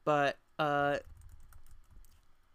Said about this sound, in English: apologies if you heard typing in the background